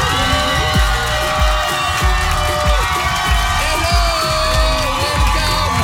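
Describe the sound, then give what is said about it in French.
A studio audience cheers and whoops to welcome a guest on a French radio show, a sustained crowd roar with scattered shouts throughout. “Faites beaucoup de bruit pour cette demoiselle.”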